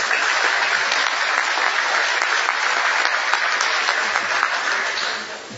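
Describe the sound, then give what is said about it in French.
Delegates at a commission meeting applaud to confirm an election by acclamation, steady even clapping for about five seconds that fades out at the end. “the Commission may wish to confirm its election by acclamation.”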